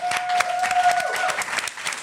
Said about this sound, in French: on peut applaudir évidemment Sébastien